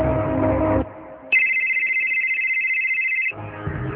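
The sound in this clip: Telephone ringing as a call is placed: a single steady, high electronic ring tone holds for about two seconds, with other sounds just before and after it.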